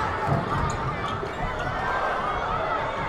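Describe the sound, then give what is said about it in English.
A basketball is dribbled repeatedly during a game, the bounces faint and blurred within a steady, loud wash of crowd noise. “Tyrus Fleetwood has the ball in his hand, doing a whole bunch of dribbling, turns it over.”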